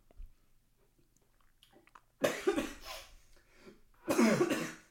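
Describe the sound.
Coughing from a tickle in the throat: two harsh, loud coughing bursts, separated by a quieter stretch with faint rustling.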